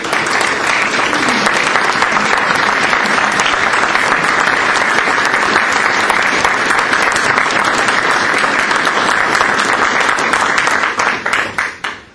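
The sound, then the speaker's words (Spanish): Loud, dense applause from an audience at a conference gathering keeps an even roar of clapping for about eleven seconds, then thins into scattered claps and fades out at the end. “Entonces quiero invitar a todos a dar un aplauso.”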